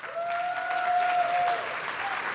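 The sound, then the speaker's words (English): A church audience applauds members being honored before a prayer, steady sustained clapping with a clear, held tone ringing over it for the first part. “I also wanted to give you guys the opportunity to applaud them for all the things that they've done.”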